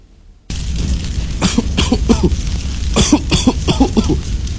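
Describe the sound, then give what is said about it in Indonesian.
A small child coughs from thick smoke of rubbish burning in a backyard, a sudden run of many harsh, rapid coughs in uneven clusters after a brief quiet start. “Asapnya tebal banget masuk ke rumah, sesak darah nih. Iya Pak RT, anak saya yang kecil langsung batuk-batuk.”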